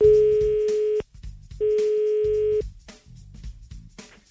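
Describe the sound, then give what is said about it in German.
Ringback tone of an outgoing phone call: two long, steady mid-pitched tones, each about a second long, separated by a short pause, over a faint low background. “Wollt ihr jemanden anrufen? Ja, mach doch mal. Die Geli ist gezogen worden. Im besten Fall geht die Geli jetzt auch ran.”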